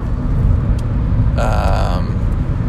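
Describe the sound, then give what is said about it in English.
A car driving on the road, heard from the driver's seat: a steady, loud, low road rumble throughout, with a brief higher whine rising over it midway before fading back into the drone. “I'm actually driving, so I wanted to make sure I wasn't going where I didn't want to miss my exit.”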